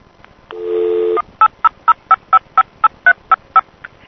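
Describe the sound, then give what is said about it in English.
Telephone dialing on a COCOT payphone: a brief steady tone, then a brisk run of evenly spaced touch-tone beeps, each short and clean, with quiet line hiss between them. “This is the CoCot recording of me calling TellMe direct.”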